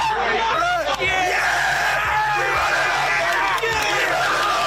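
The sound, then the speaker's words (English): Crowd celebrating a football team's first win since 2015, ending a 101-game losing streak near Huntsville: loud, continuous cheering, whoops and yelling with many overlapping voices. “Here's some sounds from their celebration courtesy of Fox 54 News in Huntsville.”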